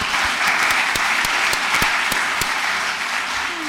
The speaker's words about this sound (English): Everybody give everybody a hand, please.